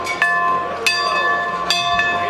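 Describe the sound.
An old-fashioned dinner bell rings at a gathering of farm leaders at the state Capitol in Nashville. Four bright metallic clangs come in an uneven rhythm, each leaving a sustained ringing tone that carries into the next.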